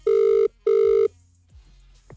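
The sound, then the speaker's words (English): Telephone ringback as an outgoing call connects: two long, even electronic ring tones separated by a short gap, followed by a quiet open line. “All right, going to dial now. I really hope they answer this.”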